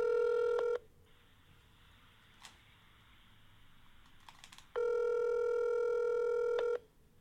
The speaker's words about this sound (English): All right, let's call one last person here.